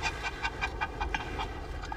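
A dog pants in quick, even breaths, many short rasping puffs in a steady rhythm, fairly faint against a soft background hiss.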